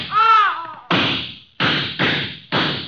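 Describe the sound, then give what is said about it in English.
Four sharp gunshots ring out as a gun is emptied into people in a drama holdup scene, each a loud crack with a short decaying tail, fired in an uneven rapid sequence. “Besides, shoot and empty your gun into them.”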